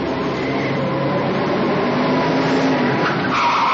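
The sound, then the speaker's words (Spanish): Car tires skidding as a car spins 180 degrees during a police chase, a loud continuous roar of engine and rubber with a squealing tone running through it, steady from start to end. “Gira 180 grados. Los coches de la policía van tras ellos.”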